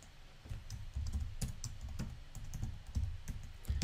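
Typing on a computer keyboard: many quick, light keystrokes in an uneven, steady patter of clicks with no talk.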